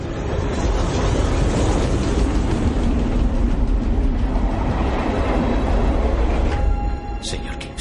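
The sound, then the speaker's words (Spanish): A train running through a meadow at night gives a loud, steady rumble with rattling wheel noise throughout, easing slightly toward the end. “De noche un tren circula por una pradera.”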